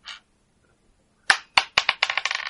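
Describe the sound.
Dice rolled onto a table during a tabletop roleplaying game: a brief rattle, a pause, then a run of sharp clattering hits that come quicker and softer as the dice settle.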